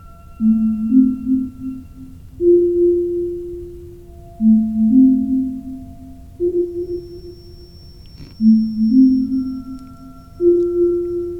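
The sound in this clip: A synth counterpoint arpeggio plays pure, sine-like tones in a repeating phrase of short stepped notes, the low figure cycling several times while a faint high tone sustains above it.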